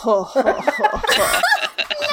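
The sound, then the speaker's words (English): A voice imitates a low-battery Tickle Me Elmo toy laughing, producing a warped, stuttering chuckle with choppy snickers and uneven, wobbling pitch that sounds eerie rather than cheerful. “you've never had a Tickle Me Elmo whose batteries were running low. What do you think his laughter sounds like then? It's real creepy.”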